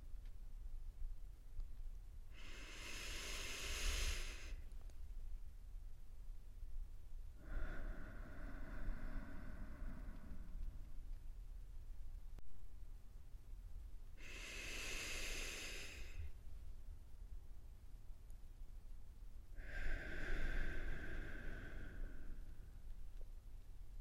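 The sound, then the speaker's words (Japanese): Slow, deep breathing done together. Four long, hissing breaths come in two in-and-out pairs, airy and separated by quiet gaps over a steady low hum. “一緒に深呼吸してふわふわってなっちゃおう。”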